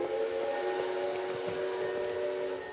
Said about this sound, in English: The train sets off across the barren terrain. A cloud of smoke funneling from its chimney.